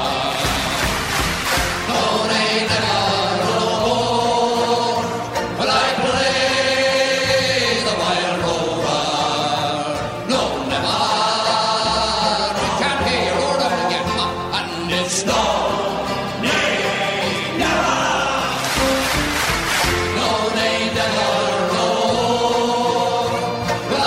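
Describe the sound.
A folk song sung live as the audience joins in. Many voices sing together in a loud, steady chorus with a lilting rhythm.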